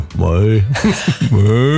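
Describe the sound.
Human voice imitating a cow mooing: a low, drawn-out, wavering lowing sound, loud and sustained across the whole moment with a brief break near the end.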